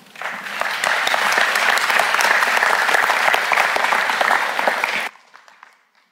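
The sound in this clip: Audience applause welcoming a speaker before a poem reading: dense, steady clapping holds at an even level for about five seconds, then cuts off sharply, leaving a brief fading tail of scattered claps.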